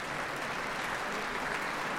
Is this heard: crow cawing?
no